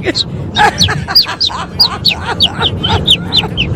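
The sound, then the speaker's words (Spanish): A listener imitating a chicken with the voice, producing many rapid, high, chirpy clucking calls in a quick, uneven series over a low background hum. “un oyente o una oyente haciendo el pollo”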